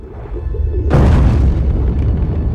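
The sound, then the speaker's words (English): A heavy cannon barrel crashes into the wooden wreckage of a ship on the seabed, giving one sudden deep boom that decays into a long, muffled rumble over a low background hum. “It crashes into the wooden wreckage of the ship on the seabed.”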